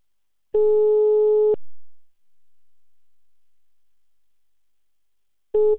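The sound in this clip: Telephone line tone as a call is placed: one steady tone lasting about a second, a long silence, then the same tone returning at the very end.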